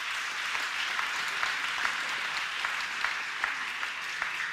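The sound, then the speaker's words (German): Applause for the technical crew at a church event, steady, fairly soft clapping from a gathered audience, with a few sharper individual claps standing out. “Ich glaube, ihr dürft der Technik mal einen Applaus geben.”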